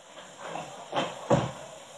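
A door is opened with two faint, soft clunks close together, heard over a quiet steady hiss.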